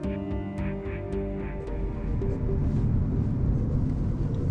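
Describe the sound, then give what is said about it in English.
A car drives along a rural road in Spotsylvania, Virginia, with a steady low engine and road rumble that grows slightly heavier in the second half. A few faint higher ticks sit over it early on. “So I'm driving in.”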